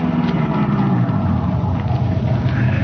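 A car drives a couple of blocks to an all-night gas station, its engine giving a steady low rumble and hum that holds evenly throughout with no talk.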